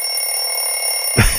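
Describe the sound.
An alarm clock rings with a steady, shrill electronic tone held throughout, ending in a brief louder burst near the end.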